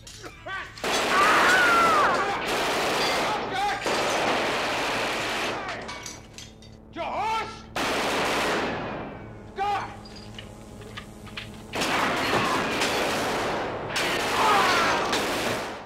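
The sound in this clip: Heavy gunfire rings out in a gangster film shootout, with long, loud volleys of rapid shots broken by several short pauses, and voices heard between the bursts.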